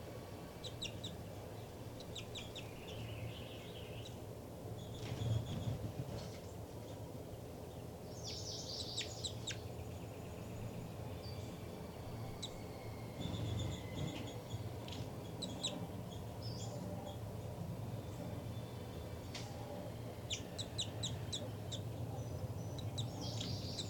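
Birds calling back and forth at a nest: faint, high chirps and brief call bursts recur throughout over a steady low background hum.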